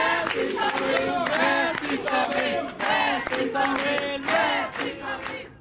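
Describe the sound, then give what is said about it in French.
Supporters of French politician Sandrine Rousseau cheer her after a primary election result, loud surging waves of voices shouting together, rising and falling over several seconds. “Dans son camp, les visages se sont figés à l'annonce du résultat, mais ses soutiens lui ont quand même réservé un bon accueil.”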